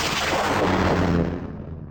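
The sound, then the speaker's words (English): A probe is launched with a loud, broad blasting rush that holds steady, then thins and fades toward the end. “Launching probe two.”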